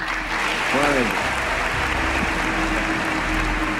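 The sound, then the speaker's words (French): Applause rings out from an audience at an American presidential address honouring the emir of Kuwait after the Gulf War. The dense, steady clapping lasts about four seconds, loud and even, with a voice heard briefly near the start. “Ce jour-là, le président américain fait applaudir l'émir du Koweït.”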